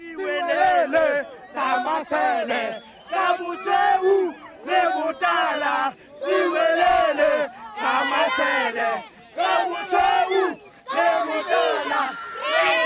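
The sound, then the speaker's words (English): Bloemfontein Celtic football fans sing together in a South African stadium during a match, a loud massed chant in rhythmic phrases broken by short pauses throughout. “here are Celtic fans who did get into the game singing one of those noisy songs.”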